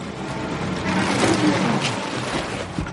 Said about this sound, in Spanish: detiene su coche